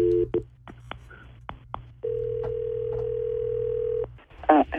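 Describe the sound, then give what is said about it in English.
A phone call being placed: a rapid series of short keypad dialing tones over a low hum, followed by a long, steady ringing tone that cuts off near the end. “So we're going to call her. You got to be quiet, and we'll find out what she says, okay?”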